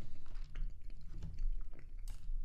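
Chewing on homemade food, a run of wet, squishy mouth sounds and small crunchy bites that keeps going without a break, with no voices heard.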